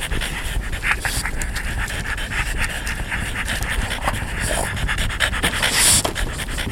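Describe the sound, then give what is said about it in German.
Dogs pant rapidly and continuously, a dense, breathy rasp that keeps up a steady fast rhythm for several seconds, with brief sharper catches of breath scattered through it. “Die Hunde kicherten.”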